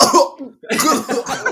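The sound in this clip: A voice imitates a cough, mimicking someone coughing while gulping down a drink, with a few rough, breathy bursts broken by a short pause.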